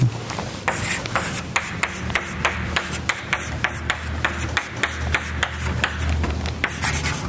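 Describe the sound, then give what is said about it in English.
Scratchy rubbing strokes come from someone writing, a long run of short, sharp marks in a fairly steady rhythm over a low background hum, with no talking. “let's see, I'm going to write.”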